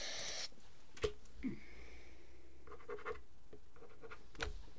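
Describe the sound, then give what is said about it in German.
A pen scratches on paper as points are written down during a game: soft, irregular strokes with a few sharper taps, faint throughout and with nobody speaking. “wir schreiben uns gerade die Punkte auf”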